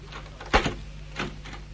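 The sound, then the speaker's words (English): A trunk being forced open: one sharp, heavy clunk, then a second, softer knock about half a second later, over a quiet background. “The trunk, get it open!”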